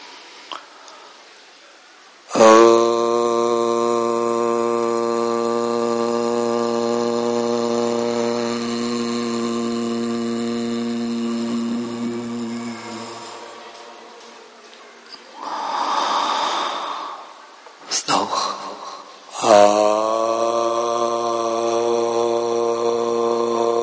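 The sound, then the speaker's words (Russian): A long, deep chanted "Om" from a meditation session, a steady low-pitched hum with rich harmonics held for about eleven seconds, then a breathy inhale and the start of another sustained chant. “Вместе с одной делаем вдох и очень глубоко произносим звук ОМ.”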